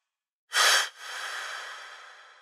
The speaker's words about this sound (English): So big, I need to stop and take a breath before I read the next line.